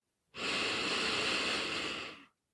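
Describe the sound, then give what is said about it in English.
A single deep breath drawn in, a steady, airy hiss lasting about two seconds that swells quickly and tapers off, heard faintly and alone. “squeeze your glutes as tightly as you can here as you take a deep breath in.”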